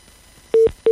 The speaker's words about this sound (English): Oh, my goodness. We just lost that call.